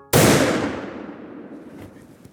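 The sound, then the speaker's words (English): A single sharp, loud hunting rifle shot fired in the woods, with an abrupt crack followed by a long rumbling decay that fades over about two seconds, heard alone without voices. “And then, I pulled the trigger.”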